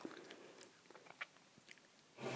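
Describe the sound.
Faint wet chewing with a few soft, crisp bites as someone eats a mixed ice cream blended from several flavors, the small clicks scattered irregularly across the quiet moment with no talking.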